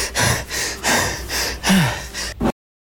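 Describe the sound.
Heavy, wheezing breaths from a runner during a race, a quick series of loud, rasping inhales and exhales, one carrying a low whistling tone, ending abruptly.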